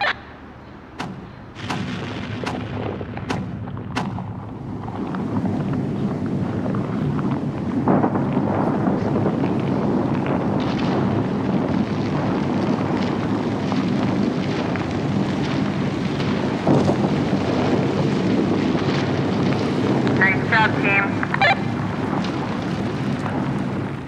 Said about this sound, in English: took a year probably to put the building up matter of seconds, it came down.